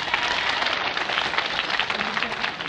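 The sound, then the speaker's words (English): Audience applause for a performer at a folk festival, a dense, steady wash of many clapping hands that holds at an even level without pause. “Wasn't that fine? Let's give him another hand.”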